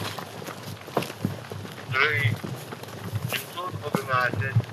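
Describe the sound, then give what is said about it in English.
Ukrainian territorial defense brigade soldiers running into position in shared war footage: rough, irregular footfalls and rustling thuds, with brief voices in places, under gusty wind noise on the microphone. “Ukraine has shared this footage of the 100th Territorial Defense Brigade soldiers running into position.”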